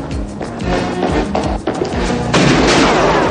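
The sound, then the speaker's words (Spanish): A gunshot is fired during a police chase scene in the 1990 action film The Rookie. It is buried in a loud, dense mix of booms, crashes and thuds. “Nick le dispara sin éxito.”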